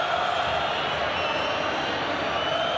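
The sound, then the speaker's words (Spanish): An Independiente football crowd roars in a stadium, a thick, steady wall of loud crowd noise that holds without pause throughout. “Se enoja la gente Independiente. Bueno, explotó el público del rojo. Explota el público del rojo.”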